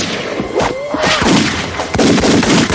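Gunfire rings out during a fight scene with police in a 1999 science-fiction film. Several sharp bangs and heavy thuds come in quick succession over a dense, loud mix.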